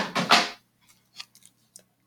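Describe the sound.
A small, mini cutting board is handled, with a brief scraping clatter at the start followed by a few faint, light taps and knocks.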